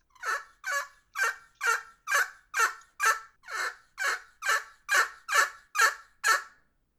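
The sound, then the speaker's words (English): Turkey gobbler yelps made on a game call, a steady run of over a dozen evenly spaced, slightly honky notes, each a short bright squawk separated by silence. “Am I sounding anything like a gobbler yelp? Yeah, I think that sounds pretty good. Might be a little honky right there.”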